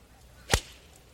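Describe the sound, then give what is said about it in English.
A single sharp crack of a McGregor golf iron striking the ball, one brief loud impact standing alone over faint background hiss. “Listen to that strike. Mm-hmm. Yeah. By the way, the McGregor irons.”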